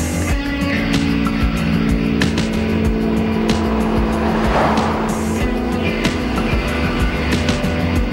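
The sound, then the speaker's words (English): An SUV's engine roars steadily as it rounds the curve of a mountain road with another car following close behind, a loud, continuous driving sound throughout. “Later, the SUV drives around the curve of a mountain road, and Jack is still behind them.”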